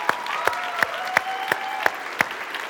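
Audience clapping at a church service: a steady run of sharp, evenly spaced claps, roughly three per second, moderately loud over a soft background hiss.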